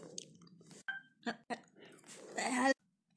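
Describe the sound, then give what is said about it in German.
Gummy bears and pastries being chewed: faint, soft, squishy bites come in a few separate bursts, then a longer, louder chewing stretch stops abruptly into silence. “Wir haben uns gerade ein bisschen Gummibärchen und Gebäck reingezogen. So, lecker essen hier.”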